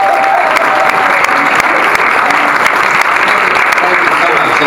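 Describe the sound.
An audience applauds to welcome a guest, a loud, dense and unbroken patter of clapping that holds steady from start to finish, with voices mixed in underneath.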